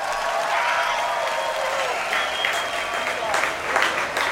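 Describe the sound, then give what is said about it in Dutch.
An audience applauds the Royal Concertgebouw Orchestra at a concert, a steady, dense wash of clapping hands that holds at an even level throughout. “wil ik jullie vragen voor een groot applaus voor het Koninklijk Concertgebouworkest onder leiding van de geweldige Han Na Chang.”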